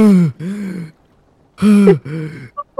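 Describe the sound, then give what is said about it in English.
A voice imitates snoring with two drawn-out, groaning breaths, each split into two rasping parts with a sliding pitch, followed by a couple of short clicks, loud and alone. “you're like slumped over snoring”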